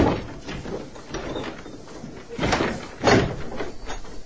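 A door being opened with a few dull thumps and rattling mechanism noises, the sharpest knocks coming near the middle and later part, set against a steady background.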